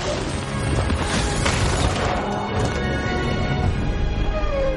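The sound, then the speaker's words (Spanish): Deep crashing booms as a huge white dragon takes flight and smashes the roofs of nearby houses, a dense, loud, continuous roar of impacts and rumble with no pause. “El dragón remonta el vuelo destrozando los tejados de las casas cercanas.”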